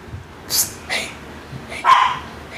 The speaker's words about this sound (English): That's a dog. That's a dog. In case you don't know what a small dog sounds like.